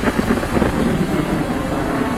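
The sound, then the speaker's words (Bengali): Distant thunder rumbles low and deep, a dense, continuous roar that holds steady for a couple of seconds with no sharp crack. “বহু দূরে মেঘ ডাকল,”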